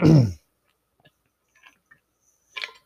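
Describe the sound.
A single short throat clear from a speaker whose throat has gone dry, a loud rough burst at the start, followed by near silence with a few faint mouth clicks and one more brief soft noise.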